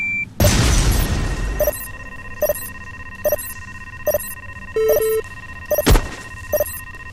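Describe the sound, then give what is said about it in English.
C4 explosives detonating in a video game: a loud booming blast with a long rumbling tail, followed by a run of short electronic menu beeps and another sharp blast near the end. “Detonate all C4.”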